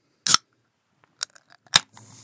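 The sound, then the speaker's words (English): An aluminum soda can gives three sharp metallic clicks and pops with small ticks between them, then a soft fizzing hiss of carbonation at the end. “That's a soda can, and it really is a miracle.”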